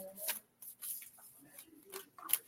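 Large cards being handled and shuffled by hands wearing rings, heard as a few soft, papery rustling bursts separated by short pauses, faint overall.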